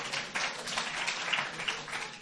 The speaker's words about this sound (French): Les femmes applaudissent, pas seulement les femmes d'ailleurs.